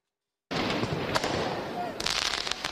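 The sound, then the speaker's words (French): Firework mortar shots boom during urban riots on a city square in Lyon after a national football team's defeat; a dense, constant roar of noise is broken by a couple of sharper cracking bursts. “Des tirs de mortier, des jets de projectiles sur les forces de l'ordre.”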